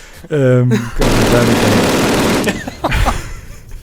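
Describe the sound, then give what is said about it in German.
A salvo of machine gun fire: a dense, loud burst of rapid fire lasting about a second and a half, preceded by a brief tonal sound, with a voice afterward. “Schnell, noch eine Salve hinterher, bitte.”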